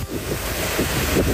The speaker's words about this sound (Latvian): pie jūriņas aizgājis, pasties, kā pūš vējels.